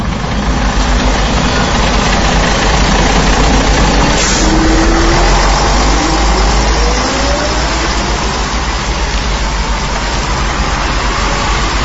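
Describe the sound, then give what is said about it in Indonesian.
A bus engine idles with a steady, loud, low rumble and broad hiss that never lets up, as passengers board before leaving for a village posting in Subang. “Setelah briefing, kami pun langsung menaiki bis yang siap mengantar kami menuju lokasi KKN di daerah Subang.”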